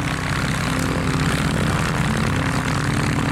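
Classic propeller aircraft engines drone at an aerodrome in a continuous, even rumble that holds steady in loudness from start to finish.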